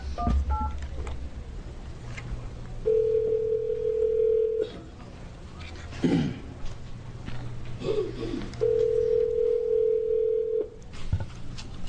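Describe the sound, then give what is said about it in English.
A telephone dial tone plays in two steady, sustained stretches, with short dialing beeps near the start, as a number is dialed to bring a caller into a committee hearing. No one speaks. “We're just going to dial a number here”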